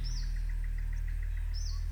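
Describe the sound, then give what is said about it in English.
Bird calls and insect chirps play from hidden speakers in a climate-controlled tropical exhibit in an auditorium. Two high, sweeping bird whistles stand out over a steady, evenly spaced train of insect pulses, with a low hum running throughout. “Ancient continental birds and insects sang from hidden speakers”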